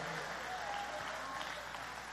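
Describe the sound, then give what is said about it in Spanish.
Faint clapping from a church audience during a worship service, a soft, steady patter of many hands that continues evenly throughout. “¿Alguien le da palmas a ese Dios grande?”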